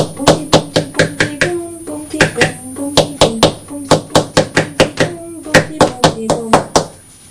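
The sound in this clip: Hands drum on a book in quick rhythmic bursts of sharp thumps and taps, with short pauses between runs, while voices talk and sing alongside.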